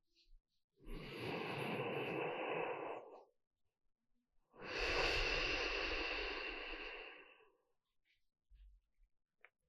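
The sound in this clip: A deep breath, heard as two long, steady breathy rushes of air separated by a short pause, fairly loud and alone with no talking.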